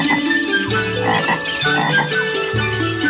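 Frog croaking runs steadily through the whole stretch, a dense, even chorus of calls with no pauses and no voices.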